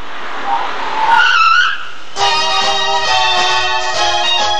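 Tires squeal as a taxi pulls up, a shrill skid with a wavering pitch, followed by a steady, sustained tonal drone that holds loud to the end.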